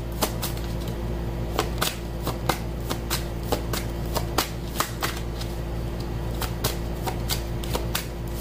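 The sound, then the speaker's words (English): Tarot cards are shuffled and drawn during a reading, with many crisp riffling snaps and taps in an uneven but steady rhythm and no talk. “May I have another card, please?”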